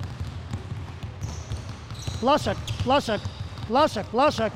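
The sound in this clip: Basketball dribbling and throwing during a drill: a few low bounces thud beneath a coach's voice calling out the moves, over a steady low background murmur.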